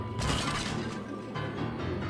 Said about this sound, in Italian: lascia cadere a terra il telefono che va in 1000 pezzi.